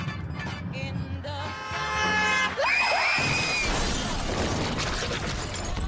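A car crash with shattering glass as a texting driver hits one car and then another. Tonal squeals and a sweeping whine give way to a loud, sustained wash of crunching noise.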